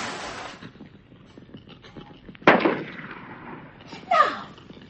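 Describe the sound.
A revolver fired into the air out of a window: two sharp bangs a second and a half apart, each trailing off into a short rumble. A low background hum runs between them.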